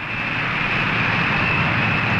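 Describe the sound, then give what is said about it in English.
The presidential jet Spirit of 76 taxis to a stop on the runway at Peking Airport, its engines giving off a loud, steady roar with a thin, constant high whine. “Christen the Spirit of 76 taxis to a stop on the runway of the Peking Airport.”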